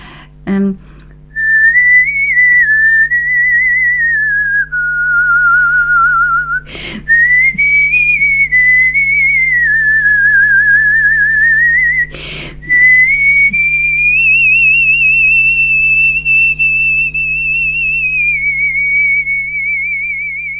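A person whistles an opera melody through a microphone in long, sustained, wavering notes that move gently up and down in pitch. A steady low hum runs beneath the whistling, and two sharp clicks break in briefly.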